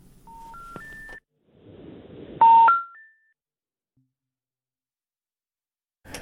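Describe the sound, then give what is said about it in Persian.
Electronic telephone line tones sound as a call to a doctor disconnects: a few steady beeps stepping upward in pitch, a burst of hiss with a louder tone, then silence before a brief final noise. “خب تماس ما با دکتر صاحب پویا بازم قطع شد.”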